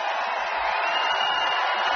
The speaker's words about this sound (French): Ah oui, le public acclame. Ah, vous entendez, c'est ça, 40 000 personnes.